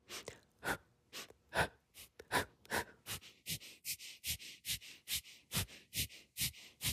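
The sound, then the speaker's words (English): Rapid forceful breathing during a fire-breath exercise, with many sharp inhales and exhales pushed out in a steady, quickening rhythm of short, hissing bursts and no talk. “Now fire breath, quickly inhale and then forcefully exhale and immediately inhale again.”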